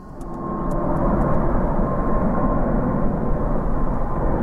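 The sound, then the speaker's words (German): A passenger jet inbound from Dubai glides low over a new residential district at dawn just before landing, its engines a loud, steady, broad rumble that swells in the first second and then holds evenly throughout. “Die Swiss-Maschine aus Dubai gleitet kurz vor der Landung über den neuen Stadtteil von Opfikon-Glattbrück.”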